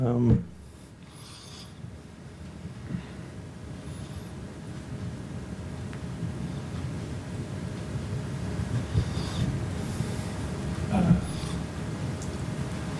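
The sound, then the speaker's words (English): A pen scribbles on paper during a meeting about building signage design, a soft, continuous scratching that runs under faint background voices and a low steady hum. “Sorry, it's scribbling.”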